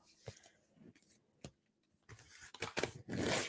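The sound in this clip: Paint stencil being peeled off a geocache test piece: a few short, faint crackling ticks, then louder sticky ripping bursts that build into a near-continuous tearing rasp at the end.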